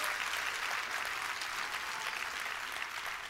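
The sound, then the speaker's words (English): An audience claps at a sermon, a steady, dense wash of many hands applauding at an even loudness throughout, without distinct peaks or pauses. “don't ever clap puny. If you're going to clap, clap.”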